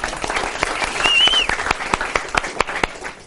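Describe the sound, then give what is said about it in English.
Scattered clapping for an assistant, sparse distinct claps ticking along unevenly for a few seconds, thin rather than a full crowd. “Let's hear it for my lovely assistant.”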